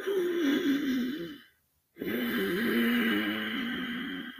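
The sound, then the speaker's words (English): Audible breathing drawn through a slightly narrowed throat, two long, steady breaths with a low humming rasp, separated by a brief silence. “I want you to kind of close your throat a little bit where you're making a sound and you can hear your breath”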